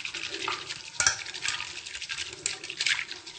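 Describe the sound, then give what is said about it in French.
A spoon stirs cold soy milk mixed with flour, making a soft, swirling liquid scrape with a few light clinks as it moves, heard alone without talk. “On mélange bien. Ça se mélange assez bien étant donné que le lait de soja est froid.”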